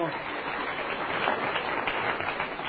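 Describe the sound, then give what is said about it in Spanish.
Congregation applause at a church service in Madrid, a dense, steady wash of many hands clapping that holds evenly for the whole clip. “Sí, denle el aplauso al Señor.”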